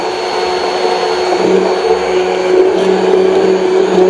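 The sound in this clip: An electric blender jug whirs while blending soupy gazpacho, a loud, continuous motor whine that stays fairly constant throughout, with no talk.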